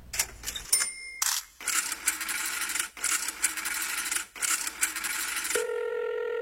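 Coins dropping into a public payphone at the border: a few metallic clinks and rattles, then a long stretch of rough mechanical rustling, ending in a steady telephone tone.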